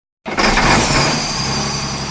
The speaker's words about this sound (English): The engine on a well rig in rural Johnson County starts up as rig workers prepare this natural gas well for a research project of the Kentucky Geological Survey.